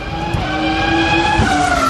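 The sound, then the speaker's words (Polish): Race cars speed by with screaming engines and squealing tyres: a loud, sustained high-pitched whine over a rough drone, its pitch shifting slightly as the cars pass. “Tak brzmi każdy porządny wyścig.”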